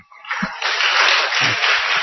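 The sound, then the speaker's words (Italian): Applause for happy children plays from an example video shown during a talk on preschool work, a dense, steady wash of clapping that begins after a short pause and carries on to the end, with a few low thumps underneath. “L'applauso è rivolto ai bambini, che sono molto felici.”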